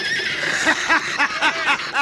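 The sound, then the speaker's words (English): Horses neigh after being pelted with rocks, a rapid run of many shrill, wavering whinnies that rise and fall in quick pulses, loud and sustained with no talk over them. “Pepper them horses good.”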